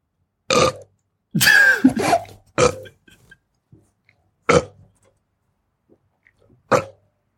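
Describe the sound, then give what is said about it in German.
A person burping into a telephone line during an automated customer-number prompt: several loud separate belches, one long and drawn out, with silent gaps between them. “Du sollst doch nicht reinrülpsen.”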